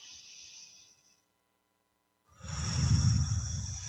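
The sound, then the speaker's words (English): A deep breath is taken during a guided relaxation: a faint airy sound fades into a brief silence, then a soft, breathy rush swells and holds until the end. “I release and let go of all of this neediness for quick fixes. Take a breath.”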